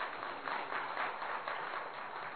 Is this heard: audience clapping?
yes